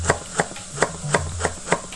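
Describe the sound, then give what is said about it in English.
A knife chops leeks into half-inch strips, six crisp, sharp strikes at an even, steady rhythm over a faint low hum. “we're going to slice our leeks. Now, I like these in 1/2-inch strips, so just chop those up.”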